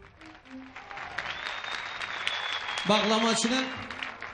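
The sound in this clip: An audience applauding, a fairly soft, continuous patter of many hands that swells gradually toward the end, with a person talking over the clapping in the last second or so.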